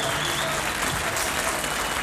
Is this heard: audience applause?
yes